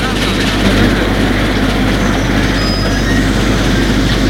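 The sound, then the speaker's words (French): A train starting to move and rolling out of the outskirts of Rome. A loud, steady rumble of rolling wheels holds throughout, and a brief high metallic squeal rises midway. “Le train bouge. Puis commence à rouler.”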